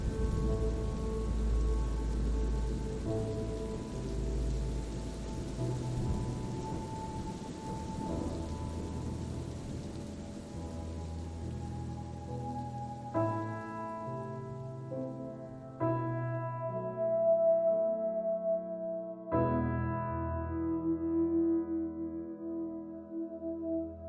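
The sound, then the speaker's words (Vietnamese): Rain falls as a dense, steady hiss for roughly the first half, then thins as sustained musical tones come in and carry on to the end. “mặc cho mưa rơi ướt người”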